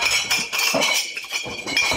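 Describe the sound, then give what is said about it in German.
Glasses clinking at Munich's Oktoberfest: a dense, continuous run of bright, overlapping clinks and clatter with no clear gaps. “Gläser klirren auf der Wiesn.”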